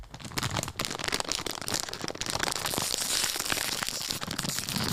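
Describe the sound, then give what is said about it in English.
A soy-containing snack bag being torn open, producing loud, continuous crinkling and crackling of plastic packaging that rustles densely without pause for five seconds. “All right, here we go. Here's the bag open.”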